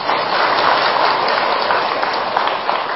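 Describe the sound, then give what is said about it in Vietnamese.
Audience applause at a Buddhist sermon, a dense, loud, even wash of many hands clapping that continues without break from start to end. “Xin quý vị tự cho mình tràng pháo tay.”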